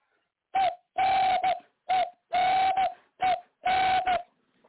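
A ring-necked dove coos in six clear bursts, each a hollow, low, steady-pitched call. Short calls alternate with longer, drawn-out ones, separated by silent gaps.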